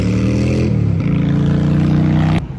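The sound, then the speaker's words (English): Loud motorcycles roar past with a strong, buzzing engine drone. The pitch shifts a couple of times before the sound cuts off sharply near the end. “Freaking motorcycles. I hate loud motorcycles. I can't stand them. It's so loud and obnoxious, you know?”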